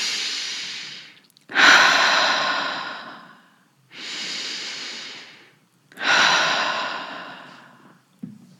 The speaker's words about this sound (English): So the first one is just a continual conscious breath. It is just an inhale through the nose and exhale out the mouth.